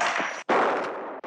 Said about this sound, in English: At the beginning of Butch Cassidy and the Sundance Kid, after Sundance shoots a man's gun holsters off his hips in a dark saloon